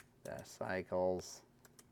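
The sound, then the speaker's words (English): Typing an email address on a computer keyboard: quick, light key clicks mixed in with a voice talking over them. “I'll type my email in here.”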